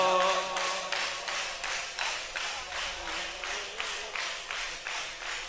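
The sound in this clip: A group of people clap their hands in a steady, even rhythm, many claps in a row, with a voice chanting briefly at the start.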